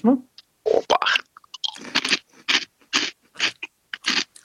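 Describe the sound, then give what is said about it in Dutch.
Crisp, dry crunching of Flamin' Hot Cheetos being chewed, a short voice at the start followed by a steady series of loud crunches separated by brief pauses. “En die Cheetos Flaming had crunchy. Ehm, wel, het is al niet zo van die zachte rommel gelijk wat Cheetos zijn.”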